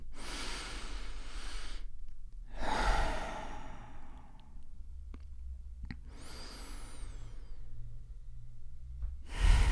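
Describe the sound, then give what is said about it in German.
Slow, deep breaths taken in a guided relaxation exercise: long, airy hissing inhales and exhales separated by quiet pauses, fairly soft and with no talk over them. “Und wir nehmen erstmal drei tiefe Atemzüge gemeinsam.”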